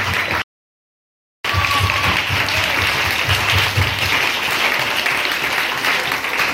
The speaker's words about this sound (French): Acclamez pour le Saint-Esprit. Acclamez s'il vous plaît.